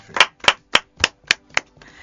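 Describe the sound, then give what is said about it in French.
Hands clap in applause: six sharp, evenly spaced claps in a steady rhythm, then a faint, low wash of noise. “Ça s'applaudit, hein?”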